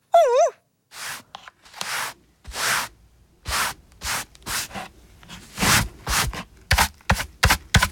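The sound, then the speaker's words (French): A broom sweeps a floor in scratchy, brushing strokes that start spaced out and grow quicker and shorter toward the end, opened by a brief warbling tone. “Tu balayes comme un chef, Toudou.”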